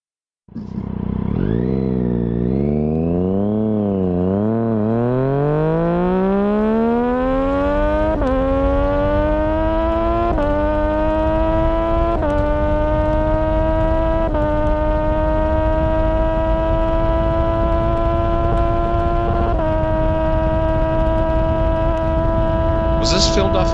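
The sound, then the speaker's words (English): A Triumph Daytona 675R motorcycle accelerates hard at red line in fifth gear, its loud continuous engine note wavering at first, then climbing steadily in pitch and holding high, broken by a few brief dips. “I found the Daytona 675. I think it's actually the 675R. And this guy is hauling the friggin' mail.”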